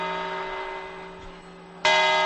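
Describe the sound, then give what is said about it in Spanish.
New Year's Eve midnight chime from the clock bell at the Puerta del Sol: a sustained ringing bell tone that slowly fades, then a single loud fresh strike that rings on brightly. “Último cuarto, van las campanadas, la gente con las uvas en la mano, las copas. Primera campanada.”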